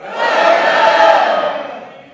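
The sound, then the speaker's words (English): A church audience shouts "welcome" together in one loud group cry that swells quickly, holds for about a second, then trails off. “On the count of three, what I'd love you to do is shout welcome as loud as you can. One, two, three.”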